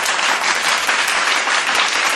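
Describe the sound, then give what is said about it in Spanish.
Applause fills the whole stretch as a dense, steady wash of many hands clapping, loud and even, with faint cheering voices mixed in. “¡Ah, venga! ¡Aplauso, por favor!”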